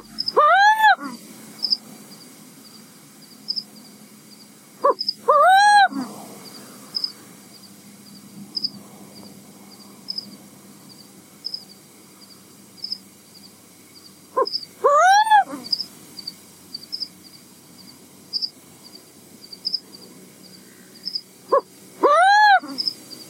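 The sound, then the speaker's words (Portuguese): A black owl calling in a treeless backyard: four drawn-out, harmonic-rich calls with an arching pitch, set apart by long quiet pauses and a few shorter clipped notes between them. “tinha coruja preta no quintal dele, apesar de não ter árvore. E ele gravou a vocalização”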